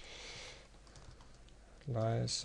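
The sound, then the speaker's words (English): Typing on a computer keyboard while entering text into software: faint, quick clicks over low hiss, followed by a louder, brief voice-like tone at the end. “And here we type tech conference”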